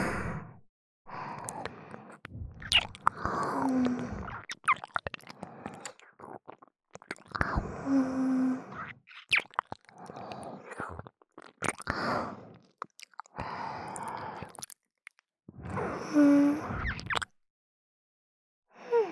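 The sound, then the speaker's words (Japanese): Wet chewing and mouth sounds, as in ear-eating role-play, come in many soft crunchy bursts separated by short pauses, with faint breathy sighs between them. “お耳おいしい。朝ごはんほとんど食べられなかったから食べちゃおうかな。”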